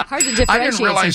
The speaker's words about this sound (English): when we hear the little ding when angels get their wings